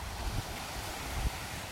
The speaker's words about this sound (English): This is the tide meaning business now, isn't it? Oh, yeah, yeah. The tide's coming right in now.